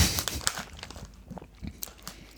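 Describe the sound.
Spelt wholemeal crackers with algae being bitten and chewed: a few sharp, crisp cracks at the start, then softer, irregular crunching and crackling that stays fairly faint.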